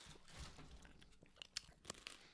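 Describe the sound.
Crackers being crunched and chewed between tastes of eggnog: soft, faint chewing noise builds to a few sharp, crisp crunches near the end, with no talk.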